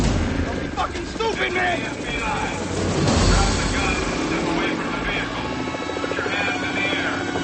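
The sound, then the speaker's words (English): A helicopter flying overhead during a chase scene with a buggy: a loud, continuous rotor drone and buzz that swells slightly midway and stays steady to the end. “A helicopter flies overhead.”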